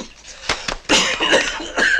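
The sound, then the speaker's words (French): A patient coughing on command during a medical examination, with two short sharp bursts followed by a longer, loud, rough and noisy stretch. “Toussez.”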